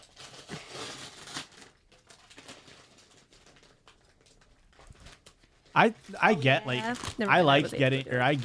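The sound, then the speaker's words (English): A package is ripped open with faint crinkling and tearing rustles at the start, followed by louder voices talking. “That one you should just be able to rip open. Don't tell me how to open packages.”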